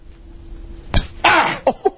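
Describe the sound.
A slap across someone's face lands as one sharp, abrupt smack, followed by a short burst of breathy noise and a couple of brief softer sounds.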